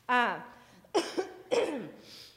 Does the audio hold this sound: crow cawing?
no